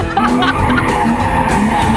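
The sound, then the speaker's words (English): Tires squeal from a modified 600-horsepower race car as it burns rubber. The loud, sustained screech has a strong tonal whine, and heavy engine roar runs underneath for the whole two seconds. “And boy, can they burn that rubber. When I entered this beautiful modified car, 600 horsepower, I feel like the happiest girl.”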